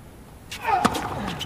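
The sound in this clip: A tennis serve in a professional match, heard as one sharp racket-on-ball pop over a low, steady background hum.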